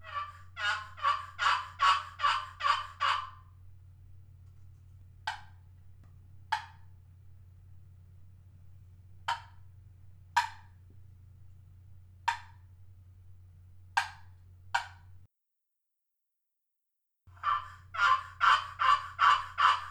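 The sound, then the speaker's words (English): Hen turkey yelps from a custom friction call of ambrosia maple and Patagonia rosewood, played at a call maker show: a quick run of about seven raspy yelps, a few spaced single notes, then another fast run, over a steady low hum. “this call that Dan made is Ambrosia Maple and Patagonia Rosewood. And it is a very pretty call, and it has a good sound to it as well.”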